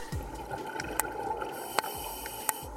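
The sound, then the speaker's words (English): Underwater sounds of divers planting seagrass seedlings to restore meadows damaged by boat anchors: a faint, steady hiss with many regular low thumping pulses and three sharp clicks. “that's the sound of scientists planting vast underwater sea meadows in a replanting program to replace seagrass destroyed by boat anchors and tourist vessels being launched from shorelines.”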